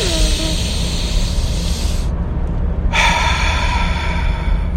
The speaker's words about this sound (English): Oh, a little burpee action there, too. All right. That was a good first breath.